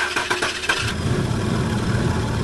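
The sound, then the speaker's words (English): An old car engine cranks with a rapid run of starter pulses, then catches and settles into a rough, sputtering idle that stays loud and steady with no voices. “Do you have a car that sounds like this?”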